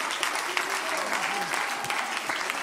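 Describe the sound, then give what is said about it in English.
Applause at a Sunday night church worship service: dense, steady clapping from an audience that holds at an even level throughout. “Put your hands together.”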